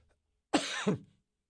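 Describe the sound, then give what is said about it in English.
A single short cough runs straight into a throat clear from someone with a tickle in the back of the throat, brief and on its own. “Excuse me, I just seem to have developed this tickle in the back of my throat.”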